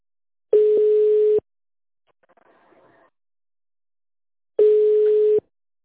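Telephone ringback tone while waiting for a company line to answer: two steady mid-pitched tones, each just under a second long and about four seconds apart, with near silence between them.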